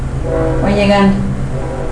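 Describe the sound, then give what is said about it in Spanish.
A train passes, sounding one sustained horn blast in the middle over a steady low rumble. “Ahí va el tren. Ya se va.”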